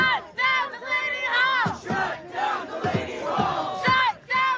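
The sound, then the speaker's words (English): Protesters outside Delaney Hall, an ICE detention center in Newark, New Jersey, chant and shout together in loud, rhythmic bursts, with many voices rising and falling in pitch through each call. “The sounds we're listening to there from protesters outside Delaney Hall. This was recorded by WABC. Delaney Hall is an ICE detention center in Newark, New Jersey”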